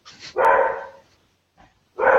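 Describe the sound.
Dog barking indoors: a few loud barks come in uneven bursts, the longest near the start, a short quiet yip in the middle and another full bark at the end, with no talk over them.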